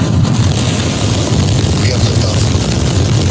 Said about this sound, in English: 5, 4, 3, ignition.